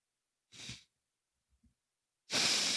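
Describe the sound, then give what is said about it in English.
Deep breathing heard as two breaths with quiet between them: a short airy breath, a faint soft sound in the gap, then a louder, sustained rushing breath that runs to the end. “Deep breaths.”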